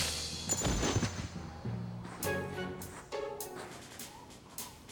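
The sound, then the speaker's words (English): Sniper rifle shots in a video game: a few sharp, isolated cracks, each with a short ringing tail, spaced apart over a quiet background. “snipers in the area. Let's shoot these guys' heads off real quick.”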